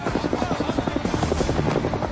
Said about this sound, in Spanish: Dos helicópteros más aterrizan cerca.